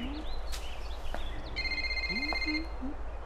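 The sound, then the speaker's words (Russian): A mobile phone ringing: a steady, bright electronic ringtone sounds for about a second, with a few short sliding tones around it and a constant low hum underneath. “У нее звонит мобильный.”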